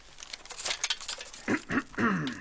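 Steel chainmail jingles as it is taken off, a few bright metallic clinks and rustling jangles at fairly low volume.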